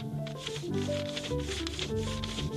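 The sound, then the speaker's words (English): A pencil rubs over paper laid on an embossed welcome sign, making soft, scratchy strokes in a steady back-and-forth rhythm at low volume. “Now, I just put the paper on top of it and then rub over the welcome.”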